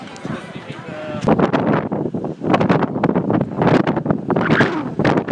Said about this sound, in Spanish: lo que se tiene que oír es el viento. Porque estoy al lado de los molinos que hay en la parte de arriba de Mykonos